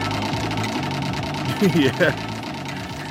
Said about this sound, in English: Pump your button and watch the wheel go.